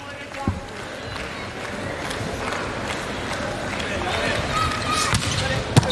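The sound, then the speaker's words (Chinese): A volleyball serve amid a continuous crowd roar, with sharp ball hits cracking through near the start and again at the very end over the steady din of spectators. “好发球啊！这个球就没有办法了。”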